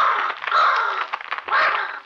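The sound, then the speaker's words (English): A huge black raven gives a few loud, harsh, raspy caws, each call drawn out and grating, heard alone without talk. “On the head of the bed perched a huge black raven”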